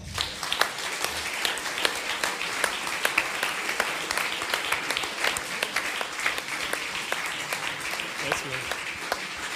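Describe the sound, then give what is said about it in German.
Warm audience applause welcoming a performer on stage at a live show: dense, steady clapping that holds at an even level throughout, without a pause. “Begrüßen Sie mit mir mit einem warmen Applaus den Andy Wolf.”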